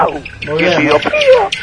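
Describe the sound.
A human voice imitates a small bird chirping, giving a quick run of high, warbling tweets and whistled trills that lasts under two seconds.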